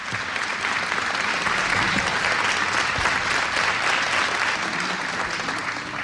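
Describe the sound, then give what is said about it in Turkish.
Audience applause for a choir and its conductor at a Turkish folk song concert, a thick, sustained wash of many hands clapping that holds steady and loud for several seconds. “Koromuzu ve Şef Mehmet Erenleri gönül dolusu alkışlıyoruz efendim.”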